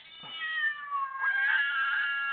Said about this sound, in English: The cats are back, I'm afraid.